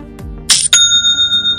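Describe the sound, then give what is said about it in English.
A Shopify new-sale notification chime: a short rattling burst is followed by a bright, clear bell ding that rings on as a sustained high tone, heard alone. “Don't you just love that sound? It's the sound of another sale on Shopify,”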